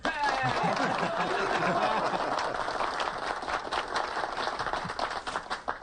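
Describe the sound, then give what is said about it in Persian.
Applause from a group of soldiers after a comrade introduces himself: dense, loud clapping at first that thins into scattered, uneven claps, with voices and chuckles mixed in. “حالا دست بزنین.”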